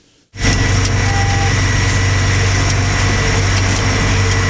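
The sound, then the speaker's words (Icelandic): A tractor engine starts up and runs with a loud, steady drone and low rumbling hum, unbroken after a brief quiet start, while it works back and forth spreading meat-and-bone-meal fertilizer across open sandy land. “búinn að fara hring eftir hring og fram og tilbaka á dráttarvélinni í sumar”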